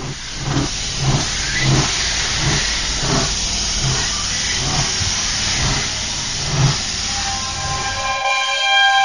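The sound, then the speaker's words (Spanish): A train pulls into a station with a loud, steady hissing rumble and rhythmic chuffing pulses, the low rumble cutting away near the end. “Atención, Tren procedente de misterios y leyendas efectuará su entrada en la vía 4, final de trayecto.”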